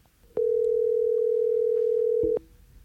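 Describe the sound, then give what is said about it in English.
Telephone dial tone heard while a call is being dialed: one steady, unbroken mid-pitched tone that holds for about two seconds and then cuts off with a short click, with no talking. “is gonna go ahead and dial his daddy.”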